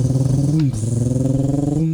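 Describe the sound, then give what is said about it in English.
A voice imitates a turbo car's blow-off valve with a loud, steady, low buzzing drone, briefly broken once midway. “You hear the blow off valve just spinning.”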